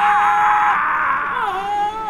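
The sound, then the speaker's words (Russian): A terrible woman's scream pierces the night and rings through the corridors of Thornfield, a sustained, tonal wail that holds for about two seconds and dips slightly in pitch near the end. “Господи, какой ужасный крик! Тишину ночи прорезал страшный вопль. Он разнесся по коридорам Торнфилда.”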